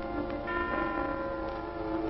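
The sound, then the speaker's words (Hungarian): Christmas church bells ring in a steady, sustained wash of overlapping tones, holding at an even loudness throughout with no talk. “Szóljatok, karácsonyi harangok, és hirdessétek az isteni szeretetet”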